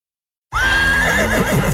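A horse neighs once, a loud whinny that starts abruptly after a moment of silence, holding a high strained pitch before breaking into a quavering, fluttering tail.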